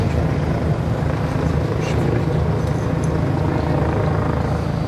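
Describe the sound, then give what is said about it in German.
A police helicopter circles over a large park in central Berlin on an early Sunday afternoon, its rotors making a constant, dense whirring drone that stays at an even loudness throughout. “Über dem Berliner Tiergarten, dem großen Park im Herzen der Hauptstadt, kreist am frühen Sonntagnachmittag noch immer der Polizeihubschrauber.”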